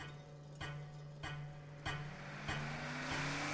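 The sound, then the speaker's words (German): A luxury car drives off: a faint, steady engine hum whose pitch rises toward the end, with five evenly spaced ticks. “Stattdessen nehme ich meine Füße, lasse sie die Pedale meines Luxusautos niederdrücken, fahre sie zum Flughafen.”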